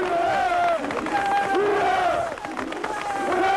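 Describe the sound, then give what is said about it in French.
Gdansk Lenin Shipyard workers cheer and shout for strike leader Lech Walesa, the electrician carried in triumph. Many voices roar and chant together in a loud, continuous crowd din with rising and falling shouted calls. “Oui, Gdansk a fêté son héros. Oui, tous les ouvriers étaient au rendez-vous pour acclamer le chef des grévistes du chantier Lénine.”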